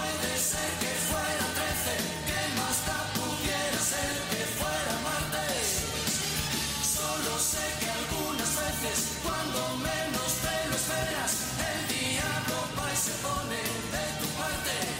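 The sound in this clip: A full-band song plays continuously at a steady, loud level, with dense layered instrumentation throughout and no talk over it.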